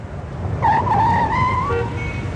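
A car braking to a stop at a taxi stand, a high tonal tyre squeal rising over low engine rumble for about a second before fading out.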